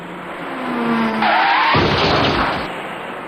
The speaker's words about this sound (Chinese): 很快一辆白色小客开了过来